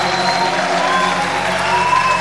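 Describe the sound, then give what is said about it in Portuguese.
Applause at a church service: an audience claps in a steady, dense wash of sound, with sustained musical tones held underneath. “Aplauda em nome de Jesus.”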